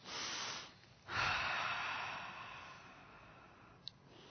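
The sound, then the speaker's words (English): Deep, slow breathing in a calm guided relaxation: a short breath, then a longer, airy breath that fades slowly, followed by a faint click. Quiet throughout, with no voices. “Again, taking 3 deep breaths.”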